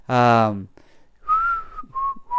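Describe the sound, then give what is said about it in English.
A person whistling idly: a short voiced sound first, then a few clear, steady whistled notes at a fairly high pitch, loud and alone without talk. “just sitting there whistling and twiddling his thumbs.”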